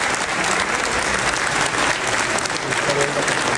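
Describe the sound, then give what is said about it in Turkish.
Applause fills the Turkish parliament chamber as Erdoğan comes to the podium, sustained, dense clapping that holds at an even level throughout. “Kurtulmuş daha sonra konuşmasını yapması için Başkan Erdoğan'ı kürsüye davet etti. Erdoğan alkışlarla karşılandı.”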